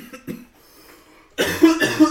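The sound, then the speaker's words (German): A person coughs a few times, with soft, short coughs at first followed by a louder, harsher burst of coughing toward the end. “Mein Husten.”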